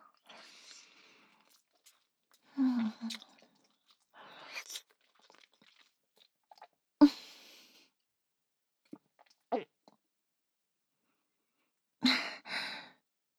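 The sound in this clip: Someone chewing and eating food makes quiet, moist mouth noises and crunchy bites. They come in a few short, separate bursts with long silent gaps between them, along with a breathy sigh-like sound.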